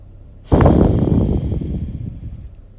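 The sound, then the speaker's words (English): A single deep breath, taken together during a morning prayer, comes as a breathy rush of air. It starts abruptly and fades gradually over about two seconds, with no voice. “So let's just take a deep breath together.”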